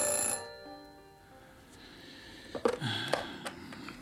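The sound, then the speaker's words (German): A telephone rings briefly and faintly at the start, followed by a few soft clunks from handling. “Solche Gedanken führten mich zurück in mein Zimmer. Mit klingelndem Telefon.”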